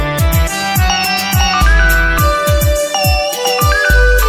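Musical ringtone playing while a phone call is placed: a melodic pattern of bright sustained tones over a steady, punchy low beat, loud and continuous with no talking.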